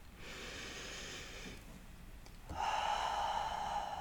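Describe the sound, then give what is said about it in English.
A slow, deep breath is drawn in and then let out before a guided mindfulness session. A soft airy inhale is followed by a short pause, then a steadier, slightly louder hissing exhale, all quiet and with no talking. “Let's take a nice deep conscious breath before we begin.”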